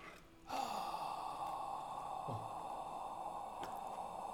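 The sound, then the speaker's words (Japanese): A slow, deep breathing exercise done while kneeling: one long, sustained, airy breath begins abruptly and flows on evenly to the end, soft and breathy, with no talk over it. “先生が呼吸法って言ったら息を長く吸って長く吐くそれをとにかく繰り返すんですけど、ちょっとだけやってみるんですね。”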